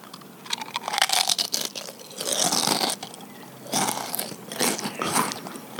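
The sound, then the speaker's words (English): Someone chews minty Orbit gum with wet, crunchy bites. The smacking and mashing come in several irregular bursts with short pauses between them, and no talking is heard. “That was the gum foley.”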